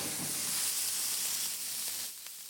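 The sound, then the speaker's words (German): Salt-seasoned wagyu steak searing in rendered wagyu fat in a restaurant kitchen: a continuous, fairly quiet hissing sizzle that holds steady and eases slightly toward the end. “unser ausgelassenes Wagyu-Fett, dass wir hier auch schnell die Hitze leiten können, um wirklich möglichst kurz das Wagyu-Fleisch anzubraten und die maximale Röstung hinzubekommen.”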